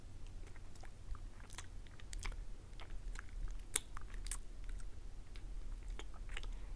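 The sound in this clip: Mouth nibbling on an ear: many soft, wet clicks, smacks and crunchy bites scattered irregularly over a faint steady hiss, close and fairly quiet, with no speech.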